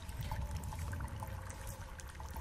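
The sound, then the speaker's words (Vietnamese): Water flowing inside a cave, a steady, continuous rushing and trickling wash with a low rumble beneath it, holding at an even level throughout without a break. “Ông Vương nghe thấy tiếng nước chảy đâu đó ở trong hang, đúng hơn tiếng nước đang chảy phát ra đằng trước.”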